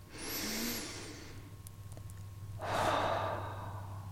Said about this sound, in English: And I invite you to take a breath.